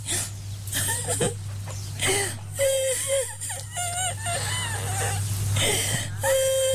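Crying and wailing from an elderly woman on Indonesian Independence Day: drawn-out, whimpering sobs with a wavering pitch, rising and falling, over a steady low hum.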